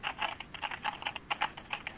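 Fingers type on a computer keyboard in a quick, uneven run of many light, clicky keystrokes with brief gaps between bursts, heard alone without talk.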